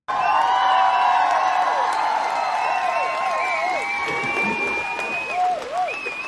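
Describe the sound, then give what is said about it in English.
A standing ovation welcoming guests at a workplace mental-health talk: steady applause and crowd cheering with shrill whoops and whistles, fading slightly toward the end. “That was quite a welcome. Right. Standing ovation.”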